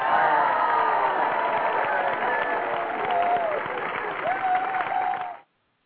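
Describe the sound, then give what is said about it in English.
An audience cheers and applauds in a sustained, loud roar of clapping and shouts while a voice keeps talking over it. The crowd noise then cuts off abruptly at the end. “No, I like talking while they're cheering us.”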